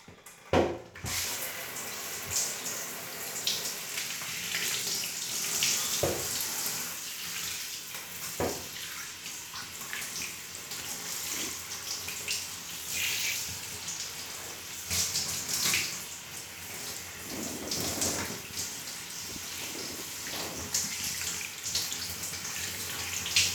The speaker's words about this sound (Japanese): リンス流しちゃうね。